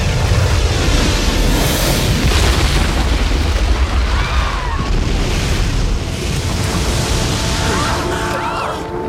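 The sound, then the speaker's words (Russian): A ship's stern crashes back down onto the water in a film scene, throwing up a huge wave. A loud, deep roaring rumble of surging water lasts throughout and eases slightly toward the end. “кормовая часть падает обратно на воду, из-за чего образовывает мощную волну, которая захлестывает часть людей, находящихся в воде.”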